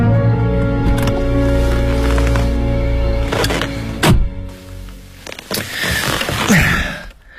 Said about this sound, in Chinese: 两个人影靠近车，滴的一声，车灯闪了一下，中控锁打开，在静谧的夜里，仿佛是潘多拉魔盒被拉开的响动。